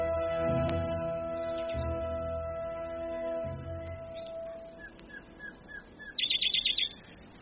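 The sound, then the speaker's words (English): A nightingale sings at night: scattered short chirps and whistled notes build into a quick, bright, high trill near the end, with a low steady tone and soft thumps underneath at first. “Listen to Philomel.”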